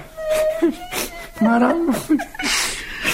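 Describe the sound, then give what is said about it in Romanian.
A woman crying, with wavering, whimpering sobs that rise and fall in pitch, broken into a few uneven bursts, with voiced sounds mixed in. “Am zis, nu plângi.”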